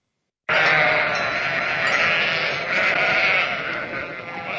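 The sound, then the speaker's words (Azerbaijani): Sheep bleat continuously. They are sacrificial sheep tied up around a city, awaiting slaughter on the morning of Eid al-Adha. The loud cries overlap in a dense, sustained chorus that starts abruptly and barely fades to the end. “Bu sabah, Qurban bayramı günündə qurbanlıq məqsədi ilə seçilmiş və kəsilmək növbəsini gözləyən qoyunlardır.”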